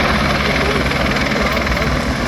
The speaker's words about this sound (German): Etwa 15 Mal ist mit Löschhubschraubern geflogen worden.